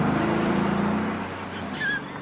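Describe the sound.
A car drives away as a steady engine rumble that eases off and quietens partway through, with no talk over it.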